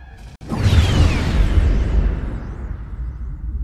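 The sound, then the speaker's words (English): Blaster fire erupts in a battle after a brief dip, with a whooshing streak that falls in pitch. A heavy, rumbling roar follows and slowly fades. “Hear those blasters? I want you out of the way before the casualties start streaming in here.”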